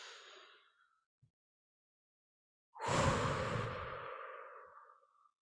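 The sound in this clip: One long, deep breath taken during a relaxation exercise: a soft, airy rush that swells quickly and fades out over about two seconds, heard alone after a quiet start with a faint earlier breath.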